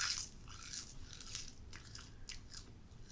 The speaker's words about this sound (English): why are you eating seaweed? This is a podcast.